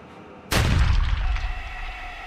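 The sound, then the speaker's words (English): Sniper's rifle gunshot as the bullet strikes metal: a single sudden, loud blast with a deep rumbling body and a long, gradually fading tail. “He fancies he can see the bullet turning, air particles dislocating at its passage through them, a faint and long-lived spark as it strikes metal and penetrates.”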